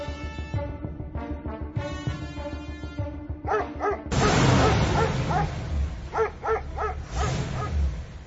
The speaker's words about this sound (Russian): Залаяли собаки.